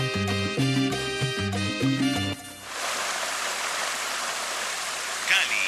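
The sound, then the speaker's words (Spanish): A water fountain splashes in Las Banderas park in Cali, Colombia, as a steady, full hiss of falling water. A short burst of music plays first, then the water goes on alone. “Tan caleña como la fuente del Parque Las Banderas.”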